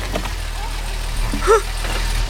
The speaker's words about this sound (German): Da kommt ein Auto. Aber das ist nicht irgendein Auto, sondern mein MG.